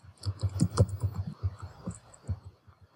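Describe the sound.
Someone types on a computer keyboard in a quick, irregular patter of soft clicks and taps. A busy burst of keystrokes thins out into sparser presses.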